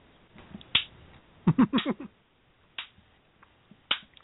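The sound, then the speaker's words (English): Slow hand claps given as mock applause: a few sharp, isolated claps spaced well apart, with a brief cluster of quicker sounds between them, against an otherwise quiet background. “I'm going to give you a slow clap for defying your former corporate overlord.”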